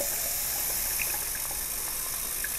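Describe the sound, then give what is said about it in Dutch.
Tap water runs into a child's water bottle as it fills, making a steady, even hiss of flowing water that holds constant from start to end with no talking. “Ik ga een waterfles van mijn kind vullen voor op school.”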